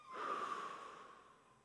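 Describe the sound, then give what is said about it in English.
A group letting out a slow, deep breath together: one long, soft, airy exhale that swells early, then gradually fades over more than a second, quiet and with no talking. “Let's all take a deep breath together.”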